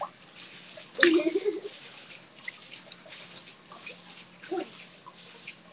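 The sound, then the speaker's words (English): Bathwater splashes as someone kicks away cold water in a tub with their feet. One sharp, splashy burst comes first, followed by faint scattered sloshes and drips. “but the water there is so cold. Okay, I'm trying to kick away the cold water.”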